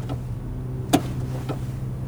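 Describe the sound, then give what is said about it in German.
Car door locks snap shut inside a car that is speeding up on its own while the brake pedal fails. One sharp click is followed by a fainter click over a low, steady hum. “Die Türverriegelung ist zugeschnappt.”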